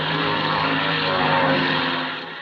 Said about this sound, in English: Now, what in the world? Why does he point the plane at us?